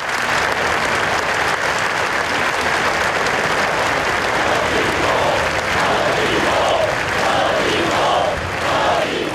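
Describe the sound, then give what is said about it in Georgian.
A gathered crowd bursts into applause and shouts after a minute of silence for victims of an attack in Barcelona, with loud, dense and continuous clapping and rhythmic chanted shouts rising through the later part. “წუთიერ დუმილს მოხვა შეკრებილების ტაში და შეძახილები არ მეშინია.”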